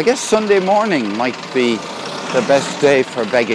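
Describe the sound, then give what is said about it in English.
A Lourdes city bus engine runs with a low, steady rumble beneath a man talking throughout. “That's the sound of the Lourdes city bus, Le City Bus.”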